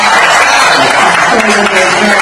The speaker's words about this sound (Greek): Στις Σέρες, οι πατριώτες του Ακύρια που συγκεντρώθηκαν στο κέντρο της πόλης για να παρακολουθήσουν όλοι μαζί τον ημιτελικό ξεσπούν σε χειροκροτήματα.